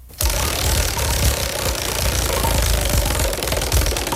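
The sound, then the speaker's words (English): A prize wheel spins for a daily discount draw, producing a rapid, continuous run of many clicking ticks at a fairly even, loud level from start to finish. “So let's go ahead and spin the wheel and see what our discount is for today.”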